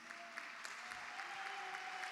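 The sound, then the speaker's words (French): A church audience applauds the preacher with a dense, continuous patter of clapping held at a steady, faint level, a soft sustained tone running underneath. “Est-ce que nous pouvons d'abord acclamer pour lui?”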